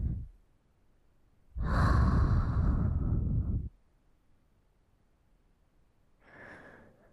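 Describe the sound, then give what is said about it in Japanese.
Deep breathing: a fading breath at the start, then one long, loud breath lasting about two seconds, and later a shorter, softer breath, with no talking. “空気を入れ替えてみろ。吸って、吐いて、”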